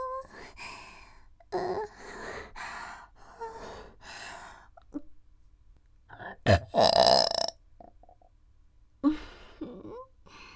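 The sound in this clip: Loud, throaty human burps repeat several times, the longest and loudest near the end, mixed with gasps and breathy sighs in the quieter stretches between them.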